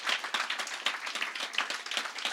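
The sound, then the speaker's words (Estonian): An audience applauds: many hands clap in a dense, steady patter at a fairly faint level, with no voices over it. “Give him a hand. He's amazing. Andke talle üks aplaus.”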